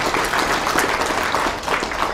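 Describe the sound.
Steady applause from an audience at a spiritual storytelling discourse, with dense, continuous clapping that stays at an even, fairly loud level throughout.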